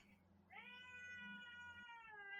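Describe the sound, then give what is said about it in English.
A house cat meows once in a long, drawn-out call with a bright harmonic tone. It holds for about two seconds, faint and alone, over a low background hum. “that was my cat”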